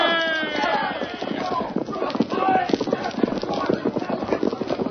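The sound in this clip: Horses gallop away from an outlaws' camp in a western drama, their hooves making many rapid, loud clip-clops. Voices are heard over the hoofbeats near the start.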